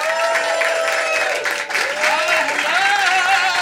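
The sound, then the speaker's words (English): An audience applauds and cheers as a host is welcomed onto the stage at a live show. The clapping is loud and steady, with whoops rising over it, and it continues unbroken for several seconds. “Everybody give it up for Just Saying with Justin Martindale.”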